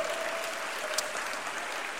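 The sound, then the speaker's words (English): Hands clap together in a church as the audience applauds, a dense, steady patter of many claps that holds at an even loudness from start to end, with no voices rising above it. “If you're excited, clap your hands for the Lord.”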